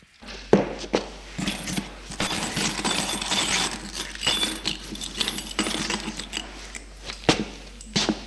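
Shards of a broken ceramic bowl being picked up by hand, with light, irregular clinks and scrapes of pieces knocking together and a few sharper, louder clicks scattered through.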